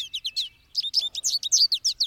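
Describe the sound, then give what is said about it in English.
American goldfinch calls as the bird lands on a huge sunflower head to pull out seeds: many quick, high, bright chirps in two bursts separated by a short pause, the second burst louder and denser. “An equally yellow American goldfinch lands on the huge flower head”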